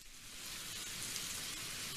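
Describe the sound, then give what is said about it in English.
Rain sound effect: a steady, dense hiss of falling rain that swells in over the first half second, then holds at an even, fairly quiet level with no thunder. “Oh, you thought it was raining outside.”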